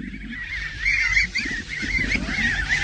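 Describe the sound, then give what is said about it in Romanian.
A flock of ten wild ducks calls as it flies past, with continuous overlapping nasal honks and quacks that swell louder in the middle and carry on steadily to the end. “Cele 10 rațe sălbatici înșelate una după alta? Chiar așa. Să le lăsăm să treacă pe dinaintea noastră.”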